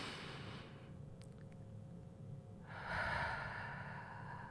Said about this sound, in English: And so the entire breath, one breath, this is what it sounds like. Breathe with me.